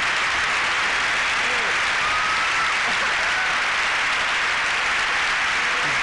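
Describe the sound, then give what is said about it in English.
Audience applause at a comedy show: steady, dense clapping that holds at an even, loud level throughout without a break. “They'll clap anything.”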